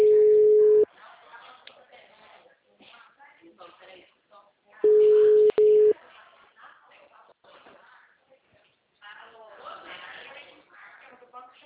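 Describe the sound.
A telephone call tone sounds while a number is dialed: a steady mid-pitched electronic beep in a few bursts, one at the start and two close together midway, with people talking quietly between and after them.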